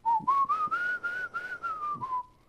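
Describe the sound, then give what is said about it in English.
A man whistles his familiar tune alone, a steady mid-pitched melody of several connected notes that climbs slightly, wavers, then gently falls and fades at the end. “He don't know what the song is, but he whistles it all the time. How you think I know it? He do it all. I mean, since I've been a little boy, he been whistling that same thing.”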